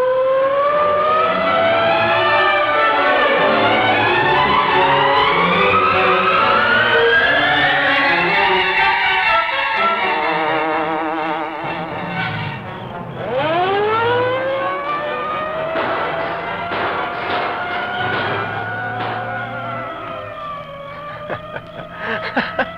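Police car sirens wail through a chase scene in a radio drama, loud and continuous with no talk. The pitch climbs steadily, drops sharply midway, then rises again.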